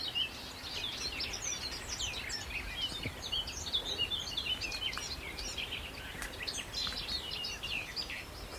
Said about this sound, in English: I think the garden warbler is a bit like the black cap. There he is, he's just scratching away here. But that's it, he's scratchy. And a bit more long-winded.